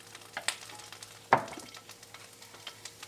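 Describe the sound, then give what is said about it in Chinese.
Scallion whites fry in hot oil with a soft, continuous sizzle, broken by light clacks of stirring and one sharper scrape. “我们就先丢葱白色的那个部分，要先丢葱白色的部分哦，因为那个是葱最有味道的一个部分，我们就要丢下去让它爆香。”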